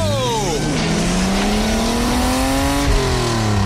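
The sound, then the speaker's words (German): A race car accelerates out of the pit lane on fresh tyres, its loud engine note climbing steadily in pitch, then dropping abruptly near the end as it shifts gear. “Achtung, Wagen Nummer 12 biegt in die Boxengasse ein. Das Auto läuft klasse, das Fahrwerk ist fantastisch. Jetzt noch neue Räder drauf, los. Go!”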